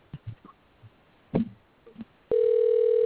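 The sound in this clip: A telephone dial tone heard while trying to call in on a phone that will not connect: a few soft clicks and thumps, then a loud, steady, unbroken tone fills the final stretch.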